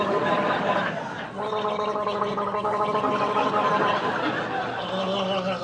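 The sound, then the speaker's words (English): A person gargling to soothe a rough throat, producing a voiced, bubbling gurgle that runs almost the whole clip, with a brief dip partway through before the gargle resumes. “What are you doing now? Gargling. I have a rough throat.”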